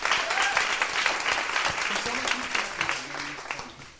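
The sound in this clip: Audience applause for a guest at a comedy club show, brisk, steady clapping mixed with a few voices, tapering off toward the end.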